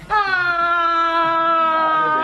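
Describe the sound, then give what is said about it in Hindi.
A girl cries in a loud, sustained, high wailing tone that holds steady and unbroken, with no talking over it. “रोती क्यों जा रही हो?”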